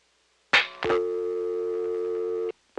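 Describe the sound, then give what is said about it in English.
Telephone line signal after flashing the hook: two sharp clicks, then a steady buzzing tone held for roughly one and a half seconds before it cuts off abruptly, with another click at the very end. “I don't know what happened to the busy signal. I'm going to flash a little longer. A little longer. Longer. There it is.”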